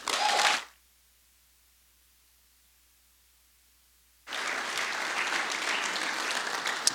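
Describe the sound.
A church audience applauds its speakers and small groups in two bursts. Brief clapping fades out and is followed by a few seconds of silence, then fuller, sustained applause resumes and continues to the end.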